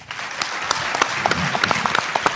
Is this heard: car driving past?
no

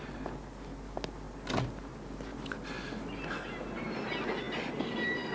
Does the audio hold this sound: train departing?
yes

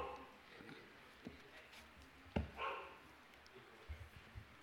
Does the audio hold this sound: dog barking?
yes

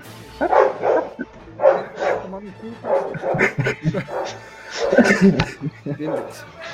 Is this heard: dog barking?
yes

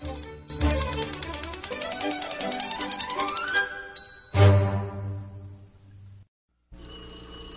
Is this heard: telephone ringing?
yes

